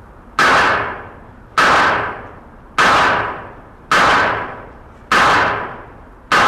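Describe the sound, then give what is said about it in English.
Five loud gunshots from a weapon fired at eye level in point shoulder shooting stance in a 1976 demonstration. Each sharp crack is followed by a decaying tail, spaced at a slow, even cadence. “Now he will bring the weapon up to eye level using the same stance, which we call point shoulder shooting.”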